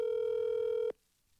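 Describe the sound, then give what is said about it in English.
A telephone call sounds as a single steady electronic tone, pitched in the middle range and rich in harmonics, holding evenly for just under a second before cutting off abruptly into near silence. “Trying to get a hold of Stinky Dean to discuss the Waylon Show Saturday, the reunion.”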